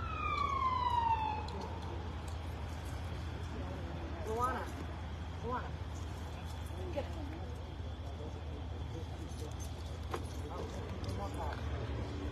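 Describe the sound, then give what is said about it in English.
A police siren at a standoff scene in Warwick, Rhode Island, wails loudly at the start, its tone falling and fading within about two seconds. A steady low rumble with scattered faint sounds follows. “More sirens.”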